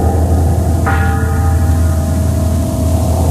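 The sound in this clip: A bell struck once within a music track, one bright clang whose ringing overtones sustain and slowly fade over a dense, steady, droning low background.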